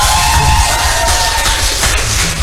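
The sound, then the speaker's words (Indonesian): Loud crowd cheering from students at a vocational school event, celebrating a radio station. A continuous roar of shouts and whoops with held, tone-like yells holds strong throughout. “Kita tepuk tangan untuk RRI Anda.”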